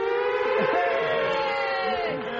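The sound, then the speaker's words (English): Air raid siren wailing loudly and continuously throughout, a steady rich tone with slight wavering that masks a voice barely audible beneath it. “the German woman, continuously silenced by an air raid siren”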